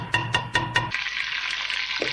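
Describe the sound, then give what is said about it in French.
Frying sizzle from a large cooking pot over a fire holding rice mixed with beans, four quick rhythmic stirring strokes followed by a steady, bright hiss. “une grosse marmite était déjà au feu.”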